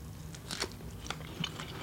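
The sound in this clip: Biting into a strawberry sprinkled with MSG, with a few soft, wet bites and chewing crunches, short and isolated with no talk over them.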